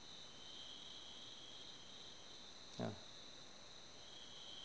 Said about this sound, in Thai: ตอนนี้จิ้งหรีดมันเดินมันร้องระงมตลอดทางเหมือนกับเสียงขณะนี้